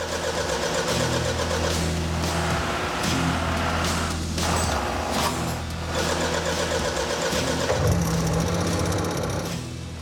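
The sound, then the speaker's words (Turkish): Two generator engines run together, producing a loud, continuous mechanical drone. A low hum and rattling tones shift slightly over time, and no one speaks. “Yani şu anda iki motorumuz çalışıyor.”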